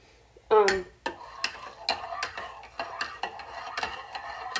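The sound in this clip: A spoon stirs coffee with a lot of creamer in a mug. A sharp metallic clatter comes first, followed by many light, quick clinks and taps of the spoon against the mug in an uneven rhythm.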